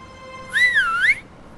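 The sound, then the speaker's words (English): A person whistles one short, clear note that wavers, dipping in pitch and then climbing higher before it stops, over a faint background hum. “Ben looks surprised by the Queen's whistle.”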